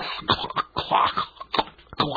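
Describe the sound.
Several harsh coughs with some throat clearing come in uneven bursts with short gaps between them. They are from a person with a bad head cold that has settled in the chest.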